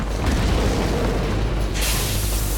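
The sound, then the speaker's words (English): An oxygen tank explodes and bursts into flames: a loud, continuous roaring boom with a deep rumble throughout, turning brighter and more hissing toward the end. “It explodes and bursts into flames.”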